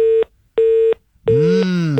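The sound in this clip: Busy tone on a disconnected telephone line: two steady, mid-pitched beeps separated by silence, then a third longer tone overlapped by a wavering, voice-like sound.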